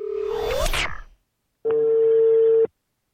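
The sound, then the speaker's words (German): Telephone call tones while dialing someone: a brief rising tone mixed with a burst of noise, then a short silence and one steady mid-pitched tone lasting about a second. “Ich möchte jetzt gerne, wenn du erlaubst, lieber Günther, äh, die Jacqueline Michel anrufen.”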